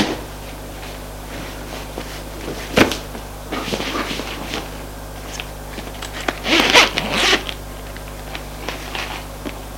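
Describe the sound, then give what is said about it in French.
A clothing zipper is pulled as a person undresses: a few short rasping bursts with soft rustling between them, over a low, steady background hum. “Il entend qu'il se déshabille.”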